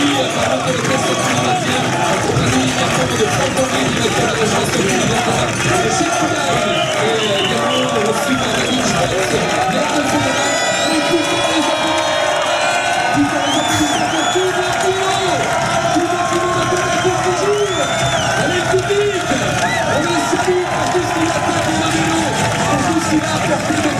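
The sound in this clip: A crowd roars for cyclist Thibaut Pinot, the day's most combative rider, at a Tour de France stage podium. Loud, continuous cheering and whistling fill the whole stretch, with voices talking over the din.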